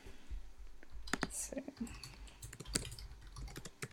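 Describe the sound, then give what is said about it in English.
Typing on a computer keyboard: scattered, faint clicky keystrokes in irregular bursts against a quiet background. “Let's just type that in the Discord.”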